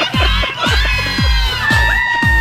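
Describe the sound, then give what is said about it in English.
A crowd of women whooping "woo" to show they're having a good time, loud overlapping cheers with repeated high calls that drop in pitch. “Yes, don't forget that famous woo. The loud, obnoxious sound women make to try to prove to others they're having a good time.”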